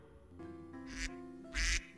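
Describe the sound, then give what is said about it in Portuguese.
A duck quacks twice, two short raspy bursts with the second louder and longer, over a low steady tonal hum. “Chegou o nosso pato.”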